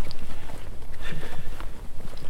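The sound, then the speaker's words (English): Quick footsteps crunch along a path through woods in a fast, steady rhythm of many steps, with a constant rough outdoor hiss and rustle underneath. “We're walking rather quickly here.”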